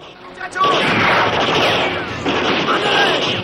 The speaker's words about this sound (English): One of Ira's men is shot from the wall.